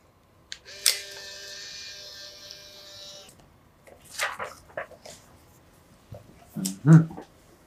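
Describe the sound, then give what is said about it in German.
A camera shutter clicks as a quick photo is taken: a sharp click near the start over a faint steady electronic whine, followed later by a few softer clicks and handling noises. “Und bevor Sie sich eintragen, machen wir noch ein schnelles Foto.”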